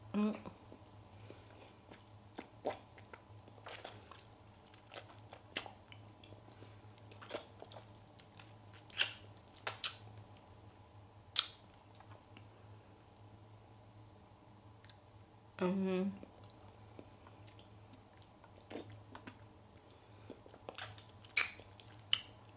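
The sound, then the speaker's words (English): Wet mouth clicks and smacks from someone licking the green part of a multicolored candy, with a few sharp scattered clicks over faint steady hum and a short denser burst midway. “It actually doesn't taste bad though. Let me see if you lick one specific color. I'm licking the green one right now.”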